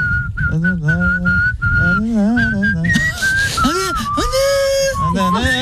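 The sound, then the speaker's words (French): A person whistles a western-style tune in a clear, high melodic line with sliding notes and short pauses, accompanied by a voice that sings or talks alongside. “Tu siffles comme un vieux. Tu siffles comme un pépé. Ouais. On a l'air con quand on siffle en fait.”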